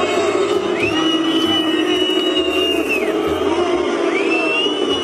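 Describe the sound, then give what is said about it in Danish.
Football stadium crowd booing mid-match at a World Cup game: a dense, steady roar of many voices that holds at an even loudness throughout, with a few thin high tones sliding above it. “Hvorfor buer folk midt i kampen?”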